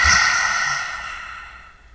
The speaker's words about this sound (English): Deep inhale, 4 counts. Hold for 2. And then exhale.